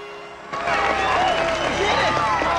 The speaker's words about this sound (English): Lewis's mouth drops open in astonishment, and the crowd go wild.